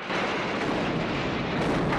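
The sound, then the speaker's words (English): A car exploding after rolling over onto its roof, a dense, low rumbling roar that starts abruptly and holds steady and loud for the whole stretch. “Before it's able to land on its wheels, under Carrie's gaze, it explodes.”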